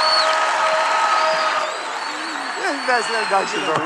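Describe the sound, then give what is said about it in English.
Applause from an audience greeting a pastor as he walks on stage at a church service. It is dense and steady, then thins out as a man's voice begins speaking over the end. “Would you put your hands together and welcome my brother, Pastor Matthew Barnett.”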